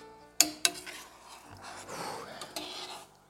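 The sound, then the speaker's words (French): A tablespoon stirs syrup with pears in a pan: two sharp metallic clinks come first, followed by soft, continuous rubbing and scraping that fades toward the end. “une cuillère à soupe, tout simplement, à côté. Et on peut venir remuer un peu le sirop avec les poires dedans.”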